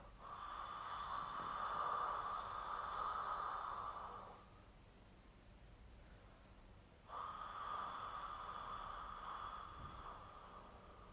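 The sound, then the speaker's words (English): Throaty open-mouthed breathing as a relaxation exercise: two long, breathy hisses of air, each lasting several seconds, separated by a quieter pause, with no talking. “So just open your mouth and just kind of do this really kind of throaty breath”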